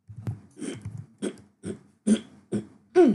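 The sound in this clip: Harsh coughing and throat clearing from someone with something caught in the throat, a series of short, forceful bursts separated by brief pauses, the final one louder and strained.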